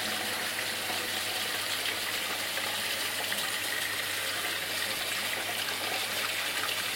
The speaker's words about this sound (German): So, kaltes Wasser abspülen.